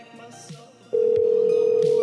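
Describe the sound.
Telephone ringing heard down the line on an outgoing call: after faint background noise, a loud, steady mid-pitched tone starts abruptly partway through and holds unbroken to the end.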